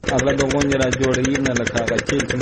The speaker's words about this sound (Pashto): عزت الله د کندهار په ډن ولسوالۍ کې خپل څلور جریبه د غنمو کښت د جنراتور په وسیله اوبه کوي